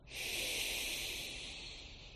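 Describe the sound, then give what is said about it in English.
A deep breath drawn in as one long airy hiss that swells quickly, then slowly eases over about two seconds, with no speech. “Hongi, breath in.”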